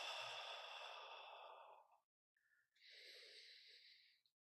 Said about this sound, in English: when you exhale from the mouth, let's make a kind of a little sound. It's like a whisper sound